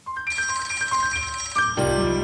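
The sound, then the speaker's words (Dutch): A telephone rings for an outgoing call with a bright electronic ringtone: a quick sequence of high beeping tones, then a fuller, denser ringing burst toward the end, with no voices. “Bellen met Dirk Boswijk, Tweede Kamerlid voor het CDA.”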